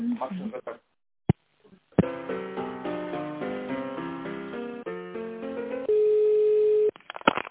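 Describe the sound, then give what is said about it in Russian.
Telephone-line sounds while a call is transferred: a voice is heard briefly, then a click and a melodic hold tune over the narrow phone line, followed by one long steady tone before talk resumes. “Сейчас попробую на главного бухгалтера вас перевести.”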